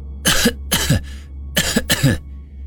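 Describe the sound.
Coughing from a sickly person clutching the chest: four harsh bursts falling in two pairs, loud and clear, with no talk around them.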